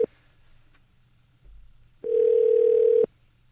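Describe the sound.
A telephone dial tone while a call is being placed: a faint click, then a low hum, and then one steady, even tone that sounds alone for about a second before cutting off.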